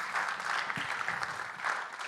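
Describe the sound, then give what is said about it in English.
Applause from a church audience at a launch service: a steady, dense wash of many hands clapping at moderate loudness, continuous throughout with no clear voices. “Go on, give yourself a clap. Give them a clap.”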